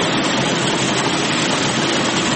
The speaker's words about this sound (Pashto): په دې ماشینونو کې د کروندګرو لخوا د باغ څخه ټوله سوې پسته پاکیږي او بیا د وچېدو وروسته بازار ته وړاندې کیږي